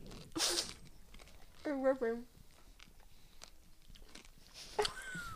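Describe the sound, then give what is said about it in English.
Someone bites into a hard green apple fruit roll-up with strawberry ice cream, making a few short, crisp crunches with soft chewing noises between them and a brief voiced murmur in the middle. “So we're going to each bite into it and see what we taste.”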